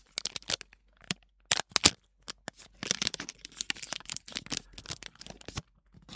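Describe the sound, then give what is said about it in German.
An object is unwrapped from its packaging with crisp rustling, crinkling and tearing. The bursts are irregular and come in quick clusters with short pauses, and no voices are heard. “Ich werde es jetzt mal aus der Verpackung lösen.”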